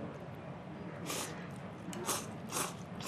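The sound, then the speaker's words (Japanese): Eating soba noodles topped with kinpira burdock: faint, soft crunching bites and chewing in a few short bursts over quiet background noise. “きんぴらを乗せます、はい、乗せて乗せて、はい、ここでいただきはい”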